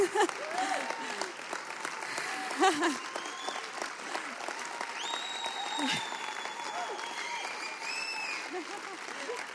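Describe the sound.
A church audience applauds to welcome a family being honoured: sustained clapping mixed with crowd noise and a few brief whistle-like tones, holding a fairly even level throughout.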